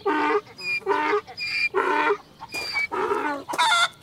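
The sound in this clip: Ducks quacking on a farm: many repeated nasal calls in quick, loud bursts with short gaps between them, no talk.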